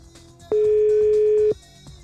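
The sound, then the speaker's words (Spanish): A telephone line tone sounds after a dropped call: a single steady, mid-pitched beep lasting about one second, clearly louder than the faint background. “aquí perdimos un poquito la llamada con Clementina. Vamos a ver si ya regresa.”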